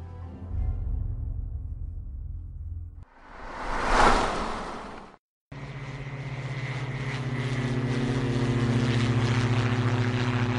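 An airplane cabin in flight, in darkness, with a steady engine drone. A brief rushing swell and a short break of silence interrupt it before the humming drone resumes and grows fuller.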